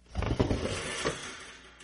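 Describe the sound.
A wooden trap door above a ladder is pushed open with a drawn-out creaking scrape that starts abruptly, holds steady for over a second, then tails off.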